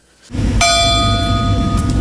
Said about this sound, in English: The Coast Guard's large brass bell rings five more times, each representing a major event of September 11th, 2001.